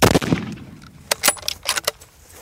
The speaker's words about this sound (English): Again, second shot doesn't kill it.